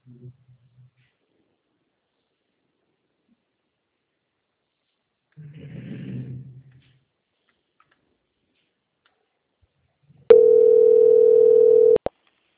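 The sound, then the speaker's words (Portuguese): A single steady electronic telephone tone plays while a bank call is being transferred, loud and unbroken for under two seconds. Long near-silence with faint low murmurs comes before it. “Só um minutinho, eu vou transferir a ligação, tá bom?”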